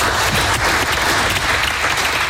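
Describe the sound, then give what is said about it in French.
Loud, dense applause greets five new European champions. The clapping is sustained and even, with no pauses. “Un grand bravo aux 5 nouveaux champions d'Europe. Voilà. On peut les applaudir.”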